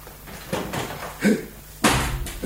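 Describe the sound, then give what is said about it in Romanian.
A window being opened by hand: a few dull knocks and clunks of varying loudness, with one sharper, louder thump near the end. “Să deschid fereastra.”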